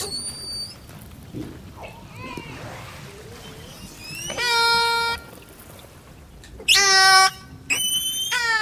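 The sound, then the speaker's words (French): Orca whistles: several loud, harmonic-rich tonal calls that sweep and bend in pitch, arriving in short bursts with quieter underwater hiss between them. “Là, on a les sifflements des orques. On a aussi des clics et des buzz qui sont un peu différents.”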